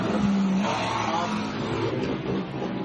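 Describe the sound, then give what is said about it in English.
An Audi endurance race car pulls away from a pit stop after a tire change with a loud, continuous engine roar and droning tone, easing slightly toward the end. “that caught the sound of that Audi going out”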